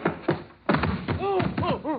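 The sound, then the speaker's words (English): Heavy thuds of a man being tackled in an old radio detective drama: a few dull blows, then strained, groaning voices. “Then, not to be outdone, I made like a big athlete.”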